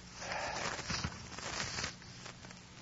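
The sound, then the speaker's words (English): A brown envelope is opened with crisp paper rustling and tearing, a few sharper crackles standing out from a continuous soft scratchy texture at moderate volume. “On the cut over there is a brown envelope. Please get it. This? Yes. Open it, please.”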